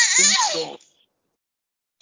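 A baby's brief crying wail, a single loud, wavering burst lasting under a second, then silence.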